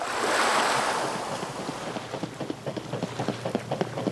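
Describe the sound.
Waves on a lake shore beside a promenade: a broad rushing wash swells and fades, then many small irregular splashes lap under a wind-like hiss, with no voices.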